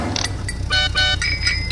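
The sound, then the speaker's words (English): A radio traffic news jingle plays short, bright, horn-like toots in quick succession over a low, steady rumble. “Let's play the music. Come on. Here we go. Traffic news.”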